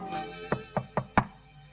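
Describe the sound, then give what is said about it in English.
Four knocks on a hotel room door come in a quick run, the last one the loudest. “He regards a Do Not Disturb sign which hangs on the door handle, then knocks anyway.”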